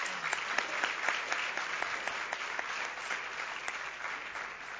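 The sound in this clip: Applause from a church audience welcoming a guest, a dense, steady clapping that fills the whole clip at an even loudness with no clear voices above it.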